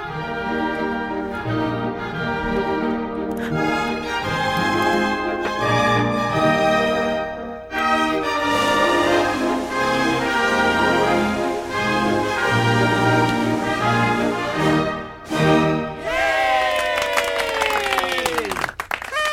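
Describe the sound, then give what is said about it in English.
A short fanfare version of the Greek national anthem is played, with full, sustained tonal chords ringing out loudly. Two brief dips break the music before a final phrase. “Did you recognize that piece of music? Yes. And for those who didn't recognize it, it's the Greek national anthem.”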